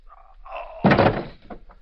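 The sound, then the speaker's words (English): A single gunshot fired through a window: a sudden loud, heavy crack that bursts out of faint low background sound and rings on briefly before fading away. “The shot came through the window”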